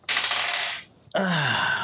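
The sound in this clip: Dice rolled for a strength check in a tabletop role-playing game, heard as two sustained bursts of clattering rattle separated by a short pause, loud and with no talk.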